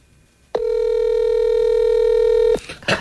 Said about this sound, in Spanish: Ahí está marcando. Este sí se escucha cuando marca.